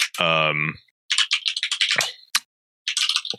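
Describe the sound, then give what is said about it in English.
Typing a search into Google on a computer keyboard: two runs of rapid key clicks after a short vocal sound at the start. “Now I want to find it. I don't know exactly what to type into Google though.”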